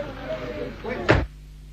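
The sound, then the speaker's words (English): A door shut quickly, heard as one short, solid thud at the very end, right after a voice speaking. “Shut the door”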